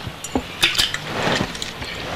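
A spoon stirring, with a few light metallic clinks and scrapes at a fairly low level.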